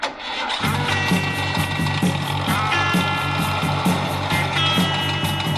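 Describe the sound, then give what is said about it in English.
A Volkswagen van engine catches after a brief moment and settles into a steady, rhythmically chugging run that stays loud and even throughout. “get in the Volkswagen van... And drive to Woodstock.”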